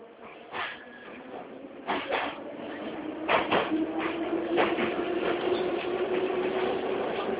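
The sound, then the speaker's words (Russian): Moscow metro train doors slide shut with a few heavy thumps and rattles, followed by a steady mechanical hum from the train. “Осторожно, дверь не закрывается. Следующая станция – Лубянка.”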